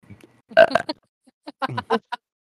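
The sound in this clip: Loud burping from babies: a few throaty, voiced bursts, with the strongest cluster near the start and several shorter gulps following, alone with no talk.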